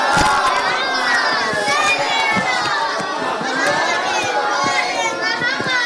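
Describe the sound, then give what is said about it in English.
A crowd at a community gathering recites a loud salawat together, a dense, sustained mass of voices with children's shouts mixed in, steady and loud throughout. “Say a loud salawat for all of them.”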